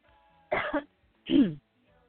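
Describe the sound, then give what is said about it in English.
A person coughs twice. The two short, rough bursts are separated by a brief pause, with nothing else heard around them. “I apologize. I don't know where that cough came from.”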